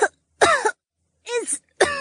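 A woman coughs in a smoke-filled laboratory, three rough, voiced coughs spaced by short silences.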